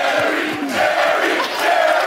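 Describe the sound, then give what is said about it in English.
Loud crowd shouting from the rowdy studio audience of the Jerry Springer Show. A packed room of voices yells together without pause, a dense, sustained roar that never drops away. “The show was notorious for its taboo, often raunchy topics, and of course, its audience.”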